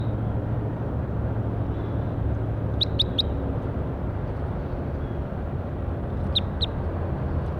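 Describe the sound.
Bird calls: brief, sharp high chirps in two short bursts, three chirps and later two, over a loud, steady, low rumbling background noise.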